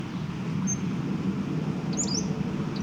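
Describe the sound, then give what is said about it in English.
A bird gives a few faint, brief high chirps over a steady low rumble of background noise. “Probably another bird.”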